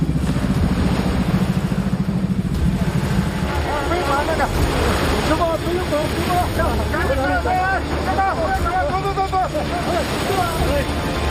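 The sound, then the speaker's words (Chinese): A boat engine roars at full throttle as the craft pushes forward, with a steady low drone mixed with wind and water noise, while voices call out loudly over it. “不要停，直接对着老陈这顶过来。加大马力，冲上来。”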